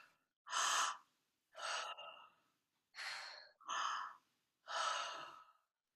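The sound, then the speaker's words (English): Deep breaths drawn in through the mouth and let out in relaxed exhales during a group breathing exercise. There are several soft, airy bursts separated by short silences, with no talking. “we can breathe in our mouth a nice big breath and go, and then relax out.”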